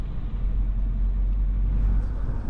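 Steady low rumble of a vehicle driving along a road, engine and tyre noise continuous and even throughout, with no voices.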